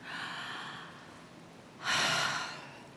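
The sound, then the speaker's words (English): Deep breath: a soft, airy breath, a pause, then a louder, rushing breath that swells and tapers off, with no speech over it. “And let's just take a deep breath.”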